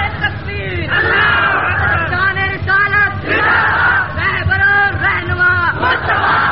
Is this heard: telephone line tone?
no